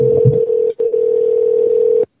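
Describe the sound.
A telephone line tone on a call that goes unanswered: a steady, mid-pitched electronic hum, briefly interrupted once, then cut off abruptly.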